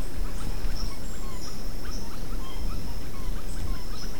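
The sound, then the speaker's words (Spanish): A large flock of tanagers calls at noon on a cloudy day, with many thin, high chirps scattered over a steady wash of dense background noise. “Es una gran bandada de tangras.”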